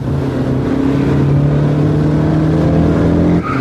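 A foreign car arriving, its engine droning loudly and steadily at a nearly constant low pitch, with a brief dip just before the end.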